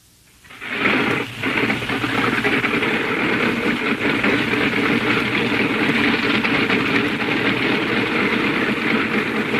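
A propeller aircraft engine starts after a brief quiet moment, catches with a short stumble, then settles into a loud, steady idle with an even, throbbing drone that continues to the end.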